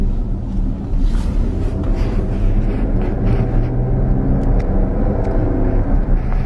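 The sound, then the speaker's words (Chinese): An Audi Q7 with the lower-power 3.0T turbocharged engine accelerates, producing a loud, steady, deep engine rumble mixed with road noise throughout. “还不错啊，因为它是一个涡轮增压版本。嗯，油门过了两千多转的时候，你能感觉到这个。那涡轮的这个介入”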